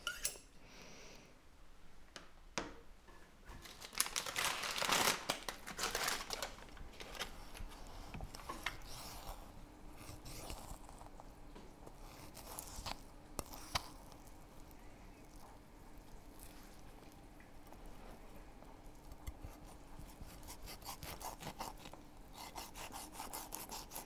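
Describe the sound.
A sharp knife cuts quail fillets, giving many rasping, sawing strokes against the cutting surface. The strokes are quiet and irregular, with a denser burst of scraping early on.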